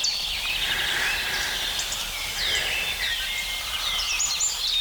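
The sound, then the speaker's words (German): Blackbird and chiffchaff singing on a cold, sunny spring morning: faint high chirps and whistled phrases come and go over a steady low outdoor hum. “Diese Morgenkälte, die Amsel sehr präzise singen lässt, aber dafür kurz, und die den Zipzalp so richtig ankurbelt.”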